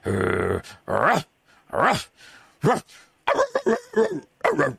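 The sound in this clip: A person imitating a dog barking: a voice produces an irregular series of short, rough, growly yelps and barks, loud and alone with brief pauses between bursts.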